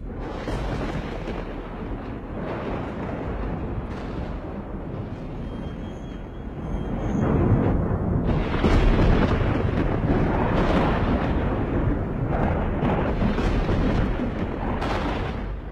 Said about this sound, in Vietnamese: trên bầu trời nổi sấm ầm ầm như là thiên lôi động nộ.